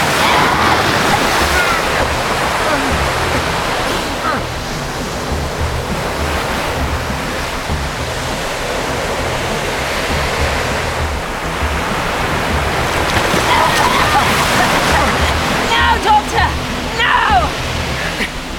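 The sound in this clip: Ocean waves crashing in a continuous loud roar of surf, swelling and easing in broad surges, with a rougher, more turbulent stretch near the end.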